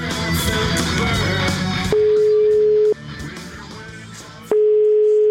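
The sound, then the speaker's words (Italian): A telephone ringback tone sounds while a call is being placed: a steady single-pitch beep in two bursts of about one second each, separated by a pause. It follows a stretch of music. “oggi abbiamo provato a chiamare il professor Antinori.”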